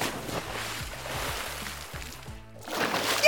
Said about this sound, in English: I will swim across the pond. They sank. No problem! I'll save you, Kapow!